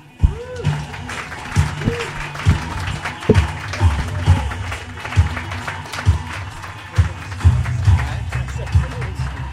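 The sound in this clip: Audience applause for a comedian being introduced at a stand-up comedy show: a continuous wash of clapping with heavier thumps recurring through it.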